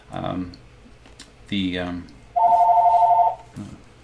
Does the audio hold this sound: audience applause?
no